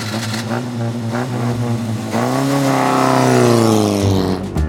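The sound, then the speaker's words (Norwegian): A car pulls away under heavy acceleration, its loud engine revving hard with a tonal note that climbs steadily in pitch before dropping back near the end. “Jeg reiv jakka ned fra knaggen og gikk ut og kjørte av sted mot Tranby med tung høyrefot.”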